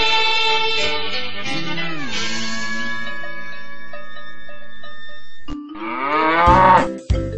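A cow moos in a few long, drawn-out, low calls with bending pitch. The calls are loud and heard on their own, with no talk.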